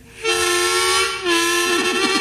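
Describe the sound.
A train whistle blows during a story about two trains racing: two long, loud, steady blasts with rich harmonics and a brief dip between them. The second blast wavers and warbles near the end.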